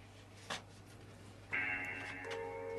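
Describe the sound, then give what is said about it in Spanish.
A mobile phone's message notification tone, set to a music clip, plays faint sustained electronic notes that drop to a lower pitch partway through, preceded by a brief click. “Uy, me suena el teléfono.”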